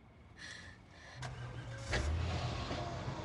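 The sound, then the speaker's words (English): A car drives out of a parking lot, its quiet engine hum building gradually, with a couple of sharp clicks on top and no voices. “drives out of the lot in the opposite direction”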